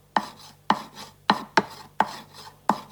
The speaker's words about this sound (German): Auf meiner Fensterbank stehen frische Kräuter. Die hacke ich klein.